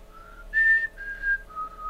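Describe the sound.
A person whistles a short movie tune loudly in a store: four clear, pure notes, a low opening tone, a higher held note, a slightly lower one, then a low closing note.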